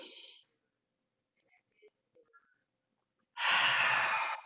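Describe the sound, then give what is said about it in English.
During a guided breathing exercise, an airy breath is followed by a near-silent hold with a few faint small sounds. A loud inhaled breath follows near the end. “So breathe in and hold.”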